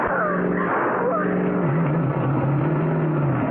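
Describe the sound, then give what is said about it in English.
A car drives fast across lawns and fields, its engine holding a loud, steady drone whose pitch wavers up and down throughout. “Okay. I'll take the wheel. You two hold on now. Yeah. All right, here goes. Cutting straight across the lawns and fields. Let's hope the tires hold.”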